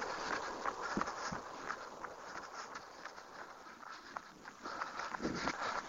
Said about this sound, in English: We're nearing the end of this run. I actually feel good.